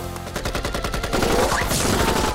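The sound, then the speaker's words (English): Gunfire from thugs at the top of a stairway: a steady stream of many rapid automatic shots that grows denser and louder partway through, with no voices. “They make it halfway to the top before they're pinned down by gunfire.”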